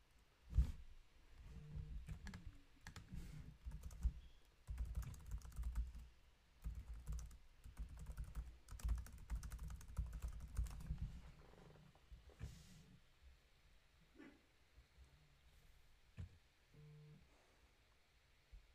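Fast typing on a computer keyboard: many sharp clicks in irregular bursts, busiest in the first half and thinning to sparser, fainter taps toward the end, with no talking.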